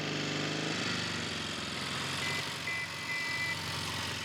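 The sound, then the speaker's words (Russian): A motorcycle with a sidecar drives along a road, its engine giving a steady, low, buzzing drone with a shifting harmonic tone at moderate, even loudness throughout. “По ней едет немецкий солдат на мотоцикле с коляской.”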